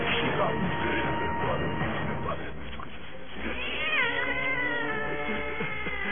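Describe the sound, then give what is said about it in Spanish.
A cat meows and yowls, its wavering, drawn-out cry rising clearly near the end over a dense, continuous bed of background sound. “Hay un gato, creo que está abajo de la cama.”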